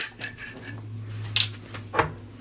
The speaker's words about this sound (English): And we're going to stir this because it's all clear and it's all spirits. So we're going to stir it.